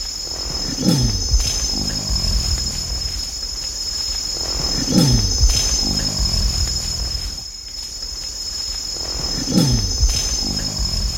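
A male animal gives deep growling calls, three of them at regular intervals several seconds apart, over a steady high chirring of insects.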